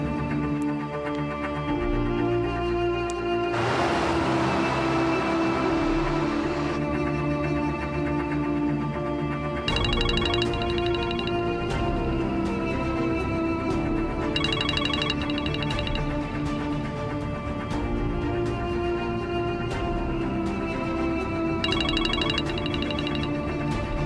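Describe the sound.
A phone ringtone plays on an outgoing call, a loud, steady melodic tone pattern repeating in sections throughout with no talk over it.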